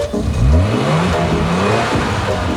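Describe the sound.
A car engine revs hard, its mid-pitched roar climbing quickly, holding, then sinking back near the end, loud and alone with no voices.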